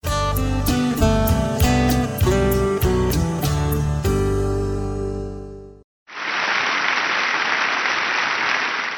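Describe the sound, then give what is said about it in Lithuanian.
Long, warm applause greets the canonization of the Fatima seers Jacinta and Francisco Marto. It follows several seconds of music and a brief silence, then rises as a loud, dense, sustained ovation. “Ilgais karštais plojimais sutiktas Fatimos regėtojų, Jacintos ir Pranciškaus Marto paskelbimas šventaisiais.”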